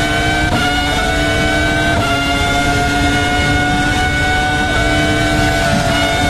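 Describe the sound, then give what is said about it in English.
A Ferrari Formula One race car engine gives a loud, sustained, high-pitched whine with strong tonal harmonics that shift slightly in pitch as it runs on continuously, with no voices. “You can see that Ferrari power, right? Look at that.”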